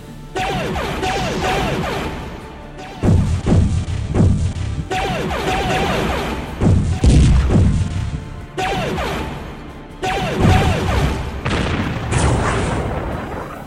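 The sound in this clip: Starship weapons fire and explosions in a space battle arrive as several long, loud roaring bursts of deep, booming blasts and rumbling impacts, separated by brief gaps.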